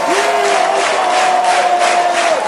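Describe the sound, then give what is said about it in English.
Crowd applause and cheering after a song at the 2009 RKFM Music United event, a dense, steady roar of clapping and voices with a sustained whistle-like tone running through it. “Let's keep the applause going for the next song.”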